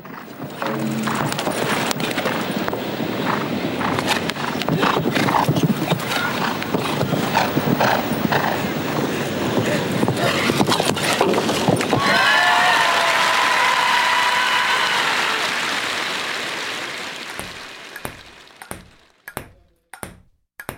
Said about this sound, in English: I leave you with one of my favorite sounds, the equestrian jumping event.